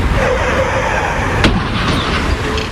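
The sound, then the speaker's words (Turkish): A car strikes a six-year-old child crossing on a bicycle at a pedestrian crosswalk in Bartın's Çaydüzü neighbourhood: a single sharp bang of impact about halfway through, set against a steady wash of traffic noise. “Küçük çocuk bisikletiyle yaya geçidinden yolun karşısına geçmek istedi. Durmayan otomobil çocuğa çarptı. Feci kaza sırasında kamera kayıttaydı.”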